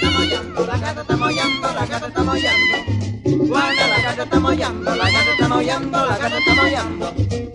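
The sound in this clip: Voices imitate a cat's meowing in sliding, drawn-out sung tones over steady music with a rhythmic beat, continuing throughout.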